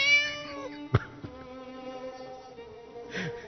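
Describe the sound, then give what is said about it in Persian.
A cat meowing, with drawn-out, wavering harmonic meows at the start and again near the end, a sharp click between them and a faint, steady hum underneath. “ناگهان دیدم گربه بعد از گفتن چند میامیا گفت”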